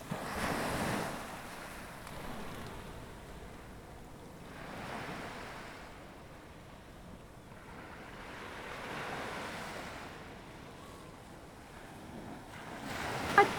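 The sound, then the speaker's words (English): Waves and wind at Catalan Bay Beach, Gibraltar, on Boxing Day: surf rolls in and recedes in slow swells of loudness under a steady wash of wind noise, with no voices. “It's Boxing Day. The weather's looking not that warm, and we're all headed out to Catalan Bay Beach for the annual polar bear swim.”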